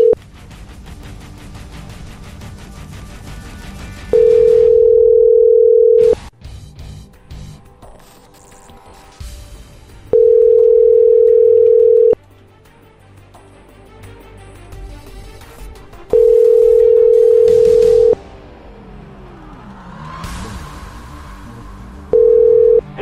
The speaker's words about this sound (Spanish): Así que vamos a marcar otra vez.